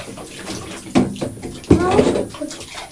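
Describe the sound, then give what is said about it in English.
Running water splashes as dirty bottles are washed, with bursts of swishing and sloshing under people talking. “Can I wash up all my dirty bottles?”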